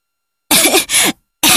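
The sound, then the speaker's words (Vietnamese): Harsh coughing from someone who has just swallowed a mouthful of ash while stepping into a fireplace fire: three loud, raspy bursts, the first two back to back, then a short pause before the third, which is cut off. “Nó mở miệng ra và lập tức nuốt phải một bụm tro. Nó ho.”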